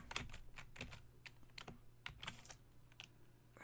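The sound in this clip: Computer keyboard typing, with many quick, irregular keystrokes clicking in uneven bursts, faint and with no talk.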